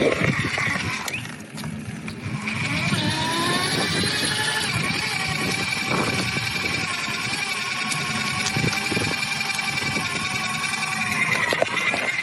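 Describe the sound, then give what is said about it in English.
A thin, steady whine from an electric bike motor running on assist level 1, a faint continuous tone that holds throughout over a broad, even rumble. “All right, we're on assist level 1. You can hear a little bit of a whine coming from the motor.”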